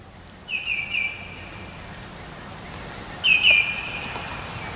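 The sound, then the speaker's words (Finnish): A common greenshank calls while flying overhead on a spring morning, giving two short bursts of clear, ringing, high whistled notes in quick series, separated by a pause, over a quiet, hushed background. “Ja valkoviklo muuten lentää tuossa yläpuolella ja siitä sitten syntyy tämä riemullinen ääninäytelmä.”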